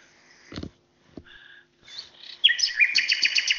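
A nightingale sings just outside the window. It delivers varied whistled phrases, then breaks into a loud, rapid, repeated trill near the end, with a brief low thud early on.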